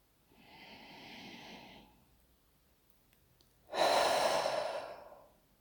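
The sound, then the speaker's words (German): Deep breathing during a guided relaxation: one soft, drawn-out inhale, a short pause, then a louder, long breathy exhale that fades away. “und bleibst bei dir. Schöpfe Atem.”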